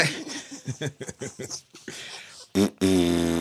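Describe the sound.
Cartoonish fart sound effect: a short buzzy burst, then a longer, low, tonal blast at the end, following a stretch of choppy, voice-like sounds.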